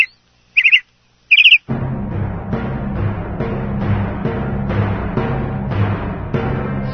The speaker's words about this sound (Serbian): Tema. Ptice.